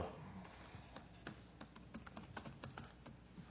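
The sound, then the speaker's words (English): Typing on a computer keyboard: a quick, irregular run of faint keystrokes tapping throughout. “Oh, because I typed it.”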